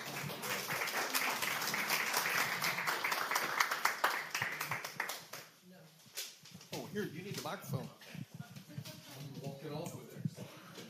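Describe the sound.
A church audience claps to welcome a couple coming up to share their testimony at a morning service. Dense, brisk applause fills the first five seconds, then thins and fades as people begin talking.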